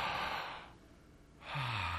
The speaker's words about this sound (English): Will you, on the count of three, let's just take a deep breath. One, two, three.